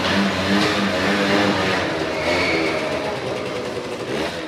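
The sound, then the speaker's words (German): A petrol scooter engine runs with a steady, buzzing mid-pitched drone that swells slightly as it revs, loud and alone. “Ja, klar, so tönt ein Benzinroller.”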